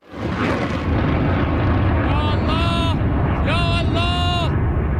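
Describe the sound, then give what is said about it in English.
Iranian forces launching missiles in news footage produce a heavy, sustained roaring rumble that swells in quickly and stays loud, with a voice speaking over the blast partway through. “Newly released footage shows Iranian forces launching those missiles.”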